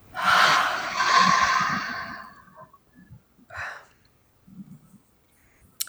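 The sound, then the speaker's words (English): Slow inhaling and exhaling in a guided breathing exercise: a loud, airy breath swelling twice over the first two seconds, then a few faint, short breathy sounds separated by quiet pauses. “One more time, inhale, exhale.”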